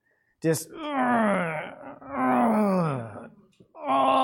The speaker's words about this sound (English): And wailing. Probably not too many people heard that unless you've been in some pretty bad accident. I mean, just the torment,